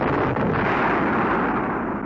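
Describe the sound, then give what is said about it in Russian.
A tin mug half-filled with gunpowder, its top flattened shut, explodes after being thrown into a campfire, heard as a dense, loud roaring blast that stays steady for the whole clip without voices. “Грянуло крепко. Дым и огонь взметнулись метров на пять, а ветки раскидало по всей площадке.”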